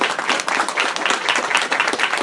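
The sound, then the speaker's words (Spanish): An audience applauds as a guest is introduced at a comics presentation, giving a dense, steady burst of many hands clapping that holds at an even level for about two seconds. “¡Fuerte aplauso para él!”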